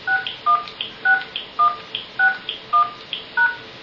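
Telephone keypad tones enter a six-digit voicemail PIN in a steady, evenly spaced run of short beeps, with faint higher blips between them and no voices.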